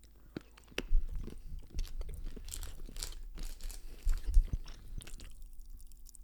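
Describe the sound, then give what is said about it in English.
Chewing of Cadbury chocolate with popping candy: crunchy bites and moist, squishy mastication repeat irregularly, with faint murmured voices underneath. “Crack it inside. Smart play. Hopefully they can hear the popping in our mouth.”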